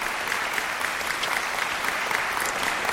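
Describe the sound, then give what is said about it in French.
Dense, steady audience applause fills a sold-out concert hall at a piano recital. Many hands clap continuously at an even loudness, with no music or talk. “Alors, ces applaudissements, je m'interromps.”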